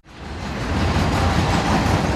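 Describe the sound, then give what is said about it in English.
A passenger train passes Golden Road Brewery, a small beer producer and restaurant in Los Angeles. Its broad rolling roar swells quickly at the start and then holds loud and steady throughout. “A passenger train passes Golden Road Brewery, a small beer producer and restaurant in the city of Los Angeles.”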